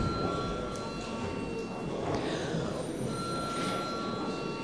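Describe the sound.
Bell rung to call a parliament session to order: a steady, sustained ringing that runs unbroken through the whole clip, fairly faint and noisy.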